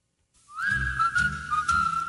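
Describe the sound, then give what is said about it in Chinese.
Light, cheerful whistling carries the melody of an old English-language song from 1958, holding a clear, high, slightly wavering note over soft musical accompaniment after a brief silent start. “好轻快嘅吹口哨声。”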